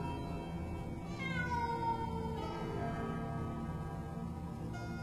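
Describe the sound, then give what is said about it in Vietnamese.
A stray cat cries with a drawn-out, wavering meow that bends downward in pitch, heard quietly over a constant low background hiss. “Cho đến khi cái thứ kia nó kêu lên thì chúng tôi mới nhận ra là một con mèo hoang”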